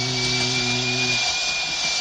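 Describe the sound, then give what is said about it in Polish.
A drill boring into a skull gives off a steady, high-pitched mechanical whine with a lower humming drone beneath it; the hum drops out after about a second while the shrill whine continues unbroken. “Pobrałam z zaplecza wiertło. Rozwierciłam czaszkiem.”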